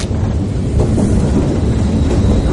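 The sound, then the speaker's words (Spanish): A train braking and coming to a stop, heard as a loud, steady, low rumble of carriages with a dense rattling texture throughout. “Se agarra a una sidera mientras el tren da un frenazo y se detiene.”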